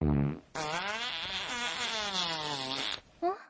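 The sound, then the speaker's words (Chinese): A long, buzzy fart blast used as a comic fart-cannon attack in a fight, holding a wavering tone for over two seconds and ending with a brief squeaky blip. “放屁炮。”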